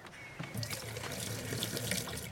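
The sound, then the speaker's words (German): Water runs from a kitchen tap into a drinking glass, a steady rushing splash that continues throughout with small shifts in the pouring sound. “hier, füll dieses Glas mal mit Wasser”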